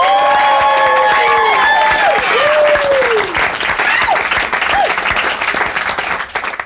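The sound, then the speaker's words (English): A live studio audience at the Pleasure Chest in West Hollywood bursts into loud applause with whoops and cheering voices on top, the clapping thinning and fading near the end. “I am at the Pleasure Chest in West Hollywood, and we are recording today in front of a live studio audience.”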